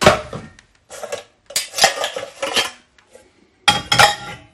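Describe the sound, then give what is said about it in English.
Metal pots and pans clatter as a bigger saucepan is fetched from among them in a kitchen while preserving apricots. Several bursts of bright clanking and scraping come with short pauses between them. “So I'll pop them in a saucepan now. I'm just going to get a bigger saucepan because I think the saucepan I've got isn't quite big enough.”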